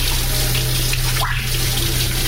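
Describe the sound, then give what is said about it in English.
Running tap water pours steadily as hands are washed beneath it, a continuous, even rushing hiss with no pauses and no voices. “I'm washing my hands.”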